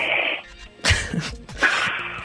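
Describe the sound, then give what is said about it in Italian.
A person imitates snoring through the nose only. A few rough, breathy, nasal rasps are drawn out with short pauses between them, and no other voices are heard. “tu devi aprire la bocca e devi produrre il rumore di chi russa. Sì, certo. Vai. Il rumore è questo. E solo col naso è questo.”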